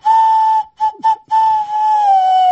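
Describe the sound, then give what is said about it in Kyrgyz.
A clay whistle (Kyrgyz chopo choor) is blown in a clear, high, steady tone. A long held note breaks into two short toots, then sounds again at length and sags slightly in pitch near the end. “Бул чопочор бала кезде ушундай бир ышкырыктар болчу эле. Ошон үчүн үн чыкты го”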